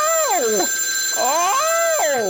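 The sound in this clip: An electronic telephone ring sounds alone, with warbling tones that sweep down and up in a few repeated swoops at steady volume.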